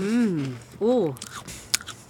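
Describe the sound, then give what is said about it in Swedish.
A bite into a cracker with a strong-tasting topping: a man's voice talking, then a few crisp crunches with one sharp snap and some softer crackles afterward. “Där tar han ett bett.”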